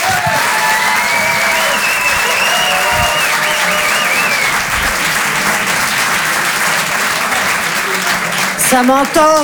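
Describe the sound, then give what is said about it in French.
Loud, continuous applause from an audience in a comedy club, a dense, steady wash of clapping with a voice heard over it at the start and end. “Je vous demande un maximum de bruit, s'il vous plaît, également pour Antonia de Rendinger.”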